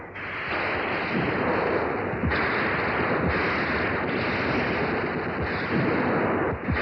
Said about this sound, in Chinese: 战斗中，战士们对准肆无忌惮进犯的敌人，瞄准射击。董存瑞兴奋地一发接着一发地狠狠射击